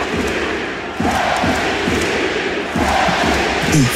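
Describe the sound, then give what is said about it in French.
A basketball arena crowd chants for Victor Wembanyama, a loud, massed roar of voices repeating in a steady rhythmic pattern with regular heavy thumps. “Alors ce genre de chant est habituel pour Wemby, mais celui-là, il a particulièrement fait trembler les murs de la salle.”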